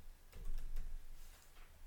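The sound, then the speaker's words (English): Typing on a computer keyboard: a few quiet, scattered key clicks over a low background hum. “I like how I typed in before you did it.”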